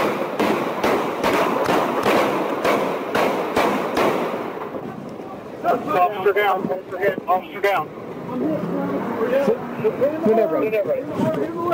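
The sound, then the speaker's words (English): Gunshots fired by police officers at a suspect during an arrest: a rapid volley of many sharp, loud cracks over about four seconds, followed by people shouting. “I lost count how many shots were fired”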